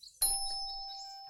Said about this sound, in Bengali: সেই সময় দরজার ঘন্টি বাজল